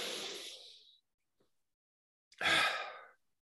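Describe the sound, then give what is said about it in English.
A big, deep breath: two long, soft rushes of air, separated by a silent pause of over a second. No one speaks. “First, a nice big breath.”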